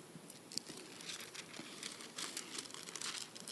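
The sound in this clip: Bible pages rustling and crinkling as a church audience opens their Bibles: a soft, continuous patter of overlapping paper sounds, faint and steady, with no talk.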